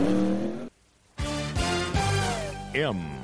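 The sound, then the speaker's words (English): A stock race car's engine leaves the pit after refuelling during a 1990 NASCAR Winston Cup road race at Watkins Glen. A steady engine roar cuts out briefly, then returns louder as the car revs, with sharp pitch sweeps near the end. “Side service complete. Second can of Sunoco fuel in. He's down and away.”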